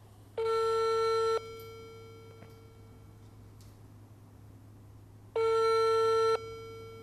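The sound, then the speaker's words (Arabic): A telephone rings unanswered during a call to a court: two long, buzzy ringback tones, each about a second, separated by several seconds of faint hum. “هنجرب نتصل تاني في إحدى المحاكم في إحدى المدن العربية الأخرى.”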